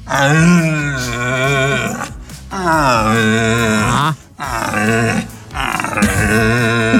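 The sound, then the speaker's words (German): Male deer bellow during the autumn rut, calling to attract females. Several long, deep, groaning roars follow one another with short gaps, loud and alone, each a rough moaning call that wavers in pitch. “Aktuell jetzt mit den kühler werdenden Tagen setzt hier bei mir auch die Hirschbrunst ein. Also hört man auch mal die männlichen Hirsche eben, sag ich mal, rufen, um die Weibchen anzulocken.”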